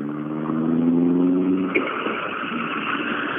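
A rally car engine running poorly gives a steady, droning hum that breaks off partway through into a rougher, noisier, uneven sound.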